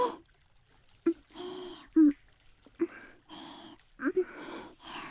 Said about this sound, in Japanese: ボディーソープもっと垂らすね。洗っていくね。